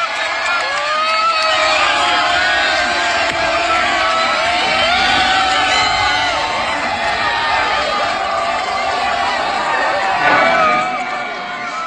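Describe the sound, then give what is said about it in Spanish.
Football fans cheer, whoop and chant in a packed city square at a World Cup fan festival, celebrating Colombia's 3–1 win over Uzbekistan. The loud, dense roar of many voices holds steady throughout before easing slightly at the end. “Vamos al Ángel, corean los asistentes al Zócalo habilitado en FIFA Fans Festival después de festejar los 3 goles de Colombia contra Uzbekistán”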